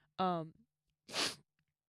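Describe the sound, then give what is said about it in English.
A person sneezes: a short voiced intake followed, after a brief pause, by a loud, breathy burst of noise, with silence before and after. “So sorry, guys. I just sneezed. Just sneezed again. Excuse me.”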